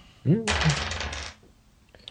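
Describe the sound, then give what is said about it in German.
Physical dice rolling on a table during a game: a dense rattling clatter lasting about a second, just after a brief vocal sound, then quiet. “Wir machen das übrigens mit den analogen Würfeln, weil es mehr Spaß macht.”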